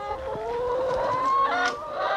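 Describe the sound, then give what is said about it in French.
Hens in a farm henhouse of a little over 500 birds cluck continuously, a murmur of overlapping tonal calls at a moderate level. “Tout en haut de l'exploitation, le poulailler, élément indispensable au modèle économique de Cédric Héroux.”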